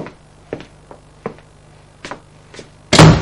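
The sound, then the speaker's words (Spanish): Bedroom door closed from inside, heard as a few light, separate taps and knocks in near-silence followed by one louder, rougher burst of sound at the end. “entra en el dormitorio y cierra por dentro.”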